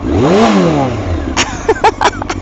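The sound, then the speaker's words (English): A motorcycle engine revving in neutral just after start-up. A throaty growl climbs, then falls away within the first second, followed by a few brief sharp sounds over a lower idle. “When you want to go to gear, just press down with your left foot. Okay, we're in neutral. Let's fire it up. Oh wow, bit of a different sound.”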